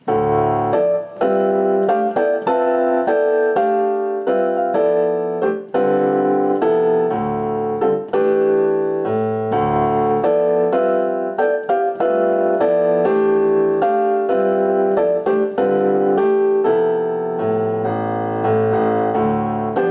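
Solo piano comps jazz chord voicings in time over a modal tune, with open stacked chords struck in a steady, syncopated rhythm and the voicings shifting up and down, continuous and fairly loud with no talking.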